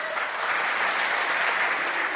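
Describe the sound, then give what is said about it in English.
A brief burst of audience applause for a football keepy-uppy performer: loud, dense, steady clapping lasting a couple of seconds. “A round of applause for Andy.”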